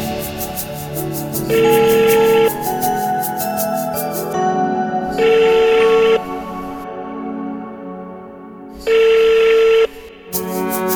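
Telephone ringback tone as a caller waits for an answer: three evenly spaced one-second beeps at a steady pitch sound over continuous background music.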